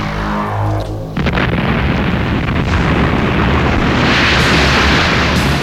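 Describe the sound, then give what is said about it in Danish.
A Harpoon missile rocket explosion cuts in loudly after a brief tonal passage, then continues as a sustained, dense roaring rumble for several seconds. “Harpunmissilet. En raket med knald i.”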